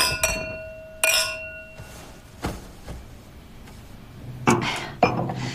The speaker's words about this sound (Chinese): 来，干杯！